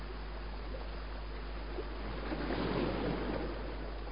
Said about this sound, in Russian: Слушай, Эдмон, это шумит море.